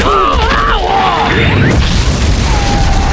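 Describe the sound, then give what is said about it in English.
A cannon on a wall fires canister shot: a heavy boom rises out of a dense, continuous roar, while whistling tones sweep and wobble above it. “The cannon on the wall had been pointed at a high trajectory toward Garriston, but the man was angling it down and down. There was a quick spark. The Earth seemed to jump.”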